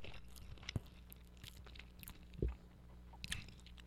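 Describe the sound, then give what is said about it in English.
Someone bites into and chews a sandwich: quiet, wet mastication with a few sharper crunchy bites standing out, heard alone without talk. “So you're going to have to just hear me take a bite of this sandwich because it looks and smells so good.”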